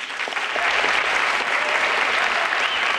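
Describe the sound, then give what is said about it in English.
Applause after a speech: a dense, steady crowd of clapping hands that stays loud and even for the whole stretch, with no voices standing out. “acknowledges the applause.”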